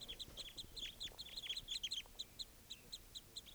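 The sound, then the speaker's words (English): A flock of birds comes in with many quick high chirps overlapping densely at first. The calls then thin to sparser, evenly spaced notes, faint throughout. “Recording something scared off the flock. Sounds like another flock coming in.”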